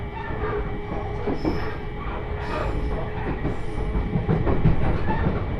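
Rumble and clatter of a Joban Line train running in toward its terminal station at Haranomachi, a steady, loud rolling drone with rhythmic rail clicks and faint wheel squeal, with no voices.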